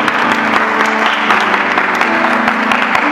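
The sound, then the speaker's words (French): A church audience applauds in a continuous, dense wash of clapping, with sustained musical tones running beneath it throughout. “Est-ce que tu peux acclamer le Saint-Esprit”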